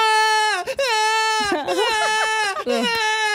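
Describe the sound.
A voice imitates a baby's convulsive crying: loud, high, sustained wails whose pitch wavers and dips, broken by short choked catches of breath.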